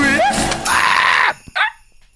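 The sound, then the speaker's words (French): Several people scream together on cue during a game segment: loud, sustained high-pitched shrieks for over a second, then a pause and a brief, sharper cry that quickly fades. “Vous devez hurler d'abord.”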